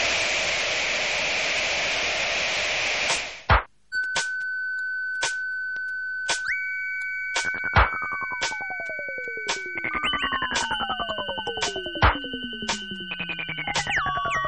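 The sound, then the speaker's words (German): Radio transmission interference: loud white-noise static hisses for about three seconds and cuts off. Sharp clicks follow, along with a steady electronic tone and several descending whistling sweeps. “Sendestörungen liegen in unserem Bereich.”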